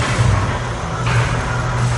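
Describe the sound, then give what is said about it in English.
An old-style motor turns an observatory telescope dome, giving a steady low hum under a continuous rushing noise that stays even throughout. “we can turn the telescope around using this old-style motor. Again, very old school, but have a listen to this.”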